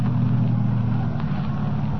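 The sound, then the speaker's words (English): Low, steady car engine rumble as a car drives through a gate into an amusement park to park, an even droning hum with little change throughout. “Drive right through the gate. You can park alongside that car.”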